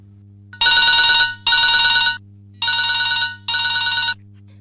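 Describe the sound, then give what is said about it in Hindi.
Telephone ringing with an incoming call: four loud electronic ring bursts of about half a second to a second each, evenly spaced with short pauses and no voices over them. “देखिए अब phone आ रहे हैं, call पर call आ रही है”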